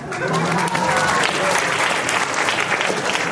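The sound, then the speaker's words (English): Audience applause at a live show: many hands clapping in a dense, steady, loud roar that lasts the whole clip. “He doesn't understand clapping.”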